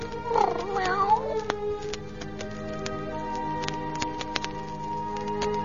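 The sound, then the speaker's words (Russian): A cat yowls in a drawn-out wavering cry early on, then quieter background follows with a few sharp clicks. “Что здесь за шум? Бедный котик.”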